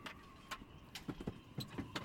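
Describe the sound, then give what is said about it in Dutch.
Faint clicks and small metallic scrapes of a key working the lock of a hatch after the winter, many short ticks scattered unevenly over a quiet background. “Oké, de sleutel doet het nog van het luik.”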